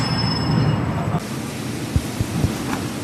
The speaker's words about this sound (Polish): To zboże, którym właśnie napełnia się wagon, zostanie przewiezione na wybrzeże i wyeksportowane.